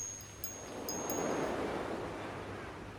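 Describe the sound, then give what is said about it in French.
Sea waves wash in a soft, steady rush of surf that swells slightly and then eases, faint throughout with no voices. “quelle contrariété contraire que d'écouter la mer, alors que tout autour, le feu brûle.”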